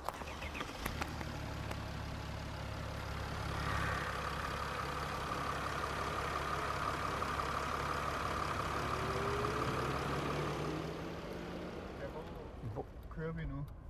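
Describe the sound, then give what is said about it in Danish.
Car engine while driving down Strandvejen on a hot summer day: a steady low rumble mixed with broad road and wind noise, swelling slightly midway and staying moderately loud throughout. “vi kører jo faktisk øh, ned ad Strandvejen på sådan en sommerdag”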